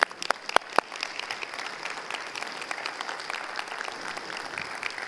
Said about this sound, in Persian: اگر میتونید چشماتون رو باز کنید و یه 30 ثانیه برای این خدا دست بزنید.